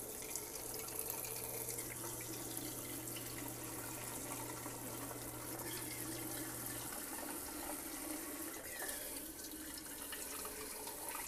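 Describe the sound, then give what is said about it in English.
A faucet running at a very low flow, giving a soft, steady trickle of water throughout, with a low hum underneath that stops partway through. “but the secret is putting the faucet on a really low amount of water coming out.”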